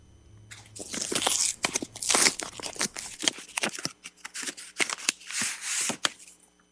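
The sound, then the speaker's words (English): Paper tearing and rustling as an envelope is opened, a long run of crisp crackling bursts and rips over several seconds, alone with no voices. “why don't you go ahead and open the envelope?”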